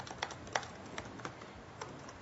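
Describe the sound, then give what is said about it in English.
Keys clatter on a computer keyboard as a Git command is typed: several light, irregularly spaced clicks over a quiet background, with no talk. “So now all I need to do is I'm just gonna come here and I type Git, Git add.”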